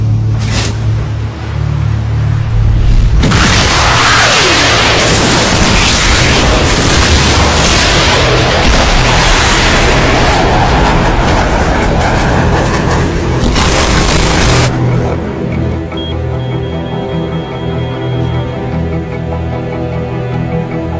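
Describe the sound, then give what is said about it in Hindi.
Missile launch: thunderous booming blasts and a dense roaring rush fill the first two-thirds, then give way to a lower sustained rumble that continues steadily to the end. “ठीक है, तुम missile fire करो। Fire.”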